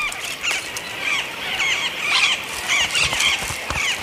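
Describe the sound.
Noisy parrots squawk while feeding on unripe southern beech nuts, with many sharp, high squeals and chattering calls in irregular bursts over a constant rushing background.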